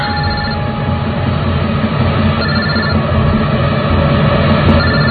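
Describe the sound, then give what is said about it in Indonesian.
A mobile phone ringing, a loud, steady electronic ring tone that carries on without a break, heard alone with no talk. “Ketika aku sudah sadar bahwa itu bukan handphoneku, dering handphone tersebut terasa semakin kencang.”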